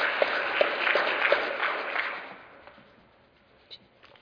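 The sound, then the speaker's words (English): Audience applause welcoming a speaker who is to describe Vermont's single-payer healthcare law. Brisk clapping holds for about two seconds, then dies away, leaving a few scattered claps. “Let's put our hands together and welcome.”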